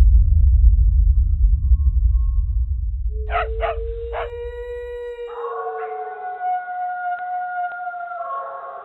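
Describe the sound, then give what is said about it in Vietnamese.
Dogs howling in a village at night: long, drawn-out wavering howls that start after a fading low rumble and then overlap in sustained tones, moderately loud with no talk. “Đâu đó ở trong làng bất chợt vang lên những tiếng chó tru.”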